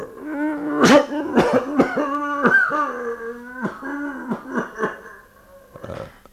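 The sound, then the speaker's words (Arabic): A man has a coughing fit: many harsh, rasping coughs and throaty, voiced heaves in an uneven rhythm. The coughing is loud and continues with no other sound. “تنتابه نوبة سعال”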